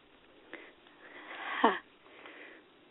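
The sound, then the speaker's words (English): A deep breath drawn in during a mindfulness session: one faint, breathy inhale that swells to a peak and then cuts off, with softer breath noise around it. “Nice deep breath.”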